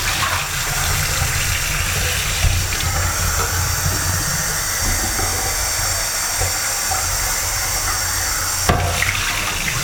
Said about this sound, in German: Jetzt spüle ich erstmal meinen Becher aus.